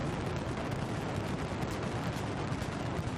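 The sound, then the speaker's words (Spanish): A dense mascletà firecracker barrage on the final day of the Valencia Fallas festival, a continuous, rapid crackle of blasts merging into a steady, loud roar with no pauses. “Pirotecnia Mediterránea ha disparado una mascleta que sencillamente ha sido espectacular.”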